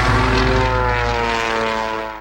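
A propeller airplane flying near an aeroclub: a loud, steady engine drone with a buzzing, harmonic tone that fades slightly at the end.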